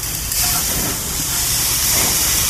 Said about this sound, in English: Then I pick it up and I flip it. I'm going to do the same thing for a second here. You're going to hear it fizzle.